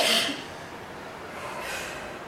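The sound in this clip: A forceful exhalation during a relaxation exercise: a short, breathy burst at the start, then a softer airy swell of breath later.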